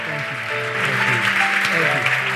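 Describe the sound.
An audience claps steadily, welcoming a speaker onto the stage at a gathering. The sustained, even applause fills the whole moment.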